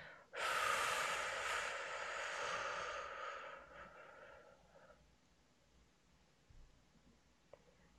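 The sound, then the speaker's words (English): A slow exhale during a breathing exercise, heard as one long, airy rush of breath lasting about three seconds that gradually fades into quiet, with a faint click near the end. “And on the count of 8, we breathe out.”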